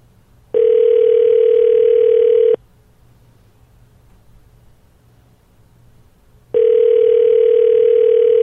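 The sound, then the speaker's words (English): Telephone ringback tone while calling a number in Nova Scotia: two long, steady, low buzzing tones, each about two seconds, separated by a quiet gap of about four seconds. “call my mom in Nova Scotia. Here's the number.”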